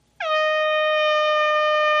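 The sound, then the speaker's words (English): A single air horn blast that starts abruptly and holds as a loud, steady, bright tone with rich harmonics, sounding alone for about two seconds without wavering. “What's an air horn? Air horn, yeah.”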